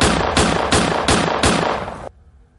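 Gunshots fired on a Paris street corner, a rapid, evenly spaced series of loud, sharp cracks that ends abruptly and leaves a short, quiet tail.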